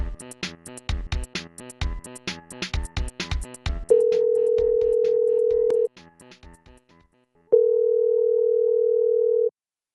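A telephone call dialing out: a rapid string of short dialing beeps, then two long, steady ringing tones separated by a pause.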